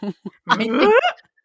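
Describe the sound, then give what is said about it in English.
A man's voice imitates a dog-like grunt: a couple of short guttural bursts, then a longer voiced growl that slides upward in pitch and ends with a brief final grunt, heard alone. “a guy who's best known for making a sound like a dog”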